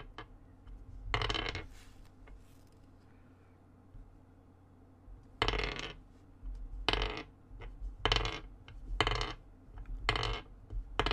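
Several dice thrown onto a table during a tabletop roleplaying game, heard as many bright clattering bursts at uneven intervals over a low, steady background hum.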